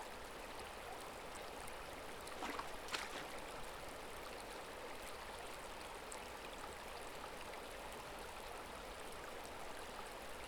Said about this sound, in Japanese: まずは両手とも川の水に浸して冷やして、